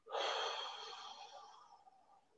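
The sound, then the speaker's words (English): A single slow, breathy exhale from a person preparing to touch a partner's body. It starts strong and steady, then gradually fades over about two seconds, with no talking. “So when I come to touch a body, I'm exhaling, I'm taking the air out,”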